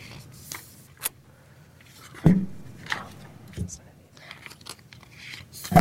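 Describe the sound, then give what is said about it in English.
Papers being rummaged through in a document sleeve: intermittent rustling and crinkling, with a few louder shuffles and soft knocks among quieter handling. “We have a lot of things tucked into this sleeve here. I'm going to find the right ones for us. Just a sec.”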